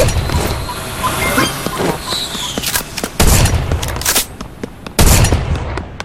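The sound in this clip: Video game gunfire: several sharp shots crack over a steady background noise, with two heavier, booming bursts standing out in the second half.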